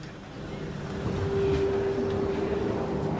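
Low, steady rumble of a Paris RER suburban commuter train, with a sustained hum running through it. The noise grows slightly louder after the first second and then holds even.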